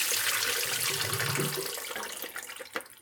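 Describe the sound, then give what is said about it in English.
Water drains from sliced fennel in a steady rushing gush that thins toward the end, with a few small splashes in the final second. “So I'm gonna drain this fennel”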